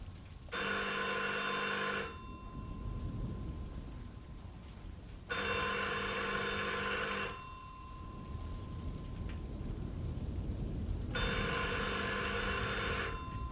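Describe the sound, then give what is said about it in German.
A telephone rings in three long bursts separated by pauses of several seconds. Each burst is a bright, trilling electronic bell, and the third keeps ringing to the end. “Ich gehe ans Telefon.”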